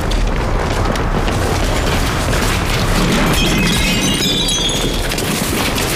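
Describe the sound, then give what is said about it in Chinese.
Crashing and shattering as a commanding officer's prized object is dropped and smashed at a wartime command headquarters: a dense, loud, continuous clatter with brief bright ringing tones partway through. “看你们把严长官的宝贝摔坏了，你们赔得起吗？”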